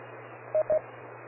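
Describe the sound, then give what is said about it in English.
DTMF tone beeps sent to an amateur radio repeater: two brief, clean, closely spaced tones over a faint steady hum and hiss on the radio channel. “and then you hear me cue out. And if I type it again, it'll do the same thing, and it'll beep. It's trying to turn on the wires mode on the repeater.”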